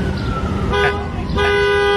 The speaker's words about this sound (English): They're on the horn. Get off the horn!